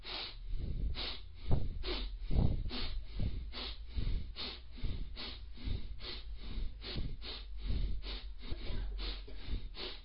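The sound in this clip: Forceful, rapid breathing during an active breathing exercise: many sharp, rhythmic breaths in a steady, quick pulse, fairly loud and with no talking.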